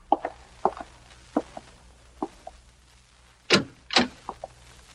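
A door is being opened: a few faint clicks and knocks at irregular intervals, then two louder rustling bursts near the end and a couple more soft taps. No one speaks.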